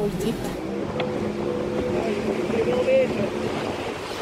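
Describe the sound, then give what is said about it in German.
A narrow wooden motorboat travelling on the Suriname River: a steady, low motor drone mixed with rushing water and wind noise, continuous throughout. “mit Leon in einem schmalen Holzboot mit Motor zurück Richtung Stadt. 5 Stunden auf dem Surinam-Fluss.”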